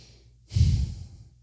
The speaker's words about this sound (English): Like, take a deep breath right now.